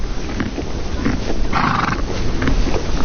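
A horse neighs against a steady, noisy background. One brighter whinny-like burst stands out near the middle.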